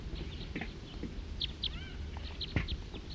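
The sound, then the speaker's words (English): Birds calling, a lone perched bird with a large flock nearby: a few short, high chirps and thin whistled notes, faint against low background noise. “Lone perch bird and a large flock nearby. Stop. Two birds.”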